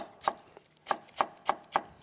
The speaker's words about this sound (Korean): 청양고추까지 썰어 주시고